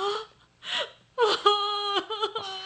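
Someone cries with whimpering, breathy sobs that build into a drawn-out, quavering wail. The high, trembling moan comes in a few uneven bursts, fairly loud and alone.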